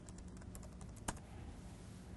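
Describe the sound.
Faint keystrokes on a computer keyboard as a command is typed at a command prompt, a quick irregular run of soft clicks with one sharper click midway.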